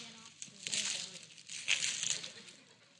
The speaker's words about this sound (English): Some of y'all do too good when you wrap, right? It makes it very difficult. Mm-hmm. There you go, it's okay. Never been able to rip one of those bow things. Those are pretty hard.